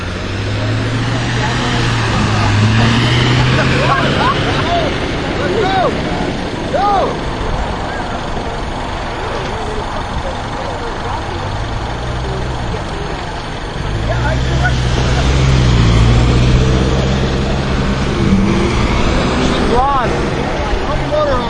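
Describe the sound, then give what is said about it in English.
A follow vehicle's car engine idles at a masters road race start, giving a low, steady rumble throughout that swells slightly in places, with indistinct voices and other faint sounds mixed in. “Sitting here next to the follow vehicle, too.”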